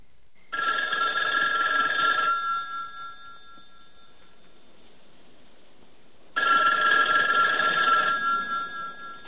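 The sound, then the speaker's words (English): A telephone rings twice with a bright, trilling bell tone, each burst lasting about two seconds, separated by a long quiet pause. “Hearing the telephone, he moves back through the grotto and heads towards it.”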